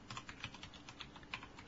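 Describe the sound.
Quiet, rapid typing on a computer keyboard: many light, irregular key clicks run steadily throughout, with no voices.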